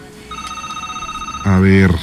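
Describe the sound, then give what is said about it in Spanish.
A telephone ringback tone plays while a listener is being called, a single steady beep lasting about a second, followed by a voice. “Ya le estamos marcando, pero no nos contesta.”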